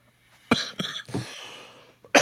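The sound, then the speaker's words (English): A person coughing: a few harsh, loud bursts in quick succession that trail off, then one more sharp cough after a short pause. “excuse me. I didn't have time to even hit my cough button there.”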